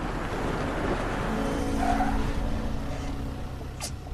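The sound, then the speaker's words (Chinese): A black sedan car roars past on the road with steady engine and tire noise, and a thin, drawn-out tonal squeal runs through the middle. The sound stays loud throughout. “吃完饭后，两人继续赶路，一辆黑色轿车突然拦在路口。”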